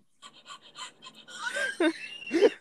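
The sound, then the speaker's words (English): A person panting on purpose to be annoying: several short, rhythmic huffs of breath that grow louder and more voiced toward the end, ending in a couple of strong, throaty gasps. “why were you panting? I just wanted to be annoying.”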